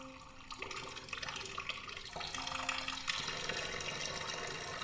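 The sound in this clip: Water pours steadily into a half-full basin, a continuous rushing, splashing flow with a faint tonal ring running through it at an even, fairly loud level.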